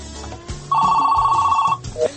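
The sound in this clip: A telephone rings for a listener calling in to a radio show. One steady electronic ring tone lasts about a second, followed by the brief start of a second ring.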